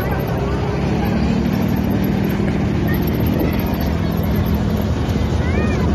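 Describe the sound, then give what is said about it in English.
Amphibious military vehicles move toward the island near Xiamen, making a continuous loud engine roar with a steady low drone and broad rushing noise that stays level throughout. “here's a quick video from WeChat showing that amphibious vehicles are on the move to the island that you just saw, Xiamen.”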